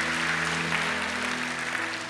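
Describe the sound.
Church audience clapping their hands: dense, steady clapping throughout, with a low sustained tone held beneath it.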